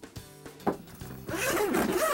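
A zipper on a lighting cord kit bag is pulled open: a few soft handling knocks come first, then a long, steady, bright rasping zip runs to the end.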